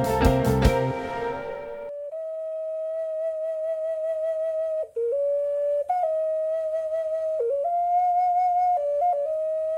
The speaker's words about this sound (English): That is the sound of an ocarina, as demonstrated by today's guest,